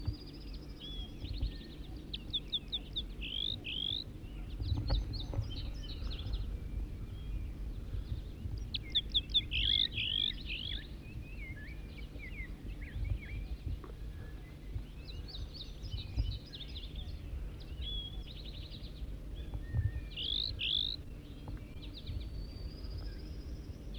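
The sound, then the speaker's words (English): A wild bird sings many short, bright, chirping phrases that repeat at irregular intervals over a faint, steady low hum. The song stays quiet throughout. “Wild bird.”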